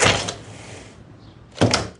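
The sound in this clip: A door in a nursing home opens with a broad, noisy burst at the start, then a softer lingering rush. A second, louder burst comes near the end.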